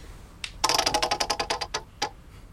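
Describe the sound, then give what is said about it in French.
A lottery wheel spun: a rapid run of sharp ticking clicks from the pointer, loud and evenly spaced at first, then spreading out as the wheel slows to a stop. “Faites tourner la roue s'il vous plaît.”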